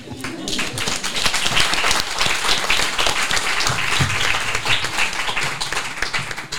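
A live audience breaks into applause at the close of a segment, with dense, continuous clapping that swells in the first seconds and then stays loud and steady to the end.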